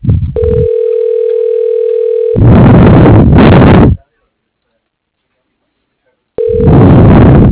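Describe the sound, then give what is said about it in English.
A telephone line on an office extension call to a commercial products company gives a steady tone, then a voice speaks over the line. Several seconds of silence follow before the tone returns briefly alongside more voice. “Dialing.”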